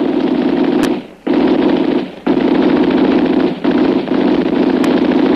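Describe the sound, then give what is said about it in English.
Rapid gunfire aimed at someone crossing a path within sight of a house, the shots going high. Loud, sustained rattling arrives in four long bursts split by brief breaks. “He fired too high. Bullet over my head.”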